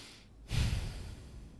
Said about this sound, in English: Why would you just take a breath like that and say nothing?